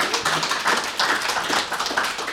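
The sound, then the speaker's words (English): Applause from an audience in a place of worship: dense, steady clapping of many hands that holds at an even level throughout, with no voices over it. “In a round of applause, thank you, I think.”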